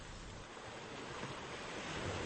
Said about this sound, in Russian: Когда же он снова пришел в себя, ему послышался тихий плеск.